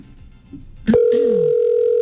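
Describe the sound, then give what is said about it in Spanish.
A telephone call rings unanswered as a steady electronic tone that starts sharply after a faint, quiet lead-in. The tone is clear, mid-pitched and sustained, and it holds at an even level to the end. “Bueno, Daniela, no contesta. Daniela, porfa, contesta.”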